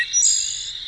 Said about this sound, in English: That's the song of the wood thrush.